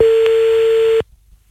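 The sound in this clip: A telephone call is redialled: a single steady electronic tone holds evenly for about a second, then cuts off abruptly into near silence.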